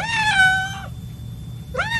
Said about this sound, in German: Und wie macht die Katze?